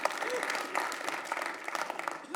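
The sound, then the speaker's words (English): Applause from an audience at a church sermon, a steady, fairly faint spatter of clapping that continues throughout, with a voice talking over it. “Again, if you're gonna applaud something, don't do it like a weenie.”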